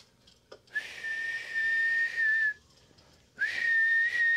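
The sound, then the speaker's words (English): Loud human whistling from a person straining to signal for help after an accident: two long, steady, high-pitched blasts separated by a short pause, the second running to the end, with no talk. “I can fucking whistle. So I took my deepest breath that I could take,”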